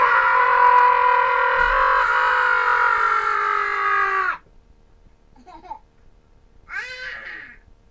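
A long, high, sustained human scream of terror holds steady for about four seconds and then cuts off abruptly, followed by a couple of brief, faint vocal sounds.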